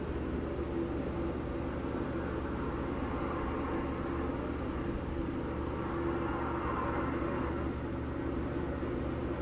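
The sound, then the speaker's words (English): A big rig truck on the move gives a steady, low engine drone and road rumble. The roar stays constant and even throughout, with no voices. “You bloody moron. Trying to get ahead of me. I'm trying to drive this big rig.”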